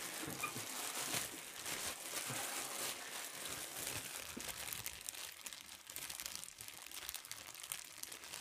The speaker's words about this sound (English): Pass that plain bagel over here. I'm gonna get that plain bagel ASMR going.